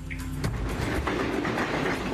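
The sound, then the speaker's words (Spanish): A train rolls past with a steady, loud rumble of wheels on rails, a dense continuous noise that holds level for the whole stretch, with no voices. “Ahí está el tren.”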